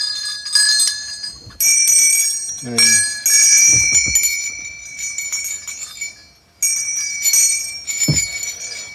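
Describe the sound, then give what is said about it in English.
Four small tuned bells with arbitrary, unsystematic tuning are rung in turn. Several bright strikes overlap, each ringing tone sustaining and slowly decaying, with short gaps between groups of strikes. “Okay, so I've got the four bells. I've got one, two, three,”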